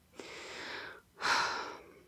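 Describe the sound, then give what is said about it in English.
A deep breath is drawn and let out, two long, airy breath sounds in a row, the second louder and fuller than the first, with no talk over them. “took a deep breath”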